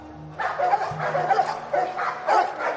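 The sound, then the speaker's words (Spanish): Dogs bark at a dog fight held in an empty swimming pool, with caged animals nearby: a run of many loud, yipping barks in an uneven rhythm, heard alone. “En una piscina vacía se organiza una pelea de perros. Varios animales permanecen enjaulados.”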